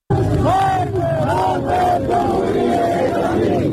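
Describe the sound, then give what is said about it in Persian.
A street protest crowd in Zahedan chants slogans in unison: loud, massed voices rise and fall together in a continuous chant, with a dense roar of the crowd underneath. “اما در خیابان هم بعد از خطبه های در واقع سخنان مولوی عبدالحمید در نماز جمعه تظاهرات کردن، شعار سر دادن. اول میریم زاهدان، صدای اونجا رو میشنویم و برمیگردیم.”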